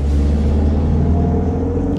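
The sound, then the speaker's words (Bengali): Engine rumble of a taxi accelerating hard during a car chase, a loud, steady low drone with a constant gritty mechanical texture and no voices. “Taxi ড্রাইভারও কিরকম excited হয়ে অ্যাক্সেলারেটরে পা চেপে দিল or জোরসে”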